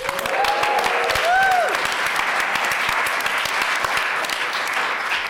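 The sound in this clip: Audience at the Science Museum applauding in welcome: thick, continuous clapping from many people at a strong, even level that carries on for several seconds without letting up.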